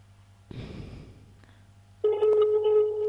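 A telephone call is placed: a short noisy burst and a faint click, followed by a loud, steady ringback tone that starts partway through and holds to the end.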